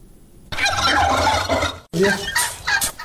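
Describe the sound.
Turkeys gobble on a turkey farm in Afghanistan's Takhar province that raises birds for meat and eggs. Loud, dense, overlapping calls come in two bursts separated by a brief pause.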